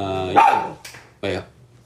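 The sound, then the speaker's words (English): A pet dog named Abby barks in an apartment, giving a few short, sharp barks spaced out over under two seconds, mixed with a speaking voice. “Gotta take care of the dog. She's like over here barking at something.”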